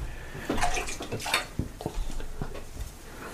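Water splashes and runs as a glass is rinsed at a beer tasting, a steady rushing pour broken by a few brief knocks of glass, fairly loud with no talk over it.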